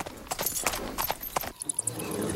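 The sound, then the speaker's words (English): Hooves of ridden horses clip-clop at a walk on a road, an irregular series of sharp knocks and thuds. “Riding their horses at a walk, Zhenyi and Chan approach a humble inn.”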